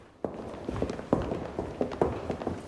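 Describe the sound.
Footsteps marching briskly along a corridor: several sharp, evenly spaced steps strike at a steady walking rhythm, clear and fairly loud against a quiet background.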